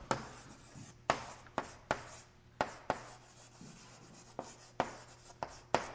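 Drawing lines on a board: many quick, scratchy strokes, each a sharp onset that fades quickly, in an uneven rhythm with no talking.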